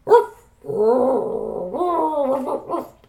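A dog vocalizes: one short, sharp bark, then a long, wavering, howl-like whine that rises and dips. It is moderately loud and heard alone.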